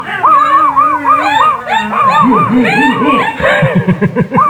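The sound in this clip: Several dogs bark and howl outside, a dense, loud chorus of long wavering howls mixed with yips and whimpering barks that runs without a break.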